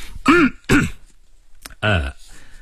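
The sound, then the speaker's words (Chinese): A man clears his throat in three short, rasping, voiced bursts, with a small click between the second and third. “他清了一下喉咙，接着说道，”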